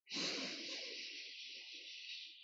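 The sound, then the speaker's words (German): A deep breath drawn in through the nose during a guided breathing exercise: a single long, steady airy rush that starts abruptly and holds for over two seconds. “Setz dich einmal aufrecht hin, deine Schultern sind nach hinten, unten gezogen und dann atme einmal tief ein über die Nase.”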